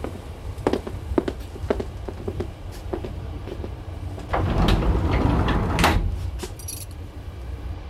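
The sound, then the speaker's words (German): Keys jangle and a lock clicks on a train compartment door, then footsteps move away over the steady low rumble of a moving train; the shuffling grows louder in the second half. “Dann schließen wir jetzt hier ab und gehen zurück zu den anderen.”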